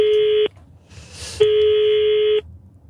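Telephone tones as a number is dialed: two long, steady, buzzy beeps of the same pitch, separated by a short gap with faint hiss.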